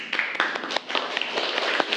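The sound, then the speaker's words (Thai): Classmates clap for a group after its classroom presentation: many scattered, uneven hand claps, fairly faint, with sharp individual smacks standing out from a loose, irregular patter rather than a full ovation. “ปรบมือเพื่อนก่อนเร็ว”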